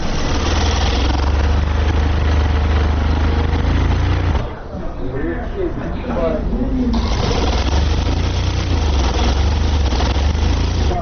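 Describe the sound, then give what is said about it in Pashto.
Sewing machines stitch wool pakol hats in a hat maker's shop, giving a steady, dense mechanical whirring that runs throughout. The machines dip briefly in the middle while a voice speaks, then resume. “هر یو په خپل ماشین او کار سر ټیټ کړي او مخې ته پراته تاو شوي پکولونه ګنډي.”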